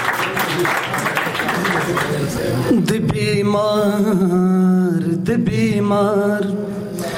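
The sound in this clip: Applause for a poet at a Pashto poetry gathering rolls as a broad, noisy patter of clapping for the first few seconds, then gives way to a sustained tonal voice.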